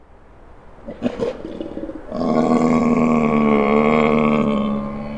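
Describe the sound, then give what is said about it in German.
A bear roaring as it comes out of its cave: a few short, rough bursts, then a long, loud, steady low roar that holds for about three seconds. “Dort drüben bei der Höhle jagen zwei Neandertaler einen Bären. Er kommt gerade aus seiner Höhle heraus”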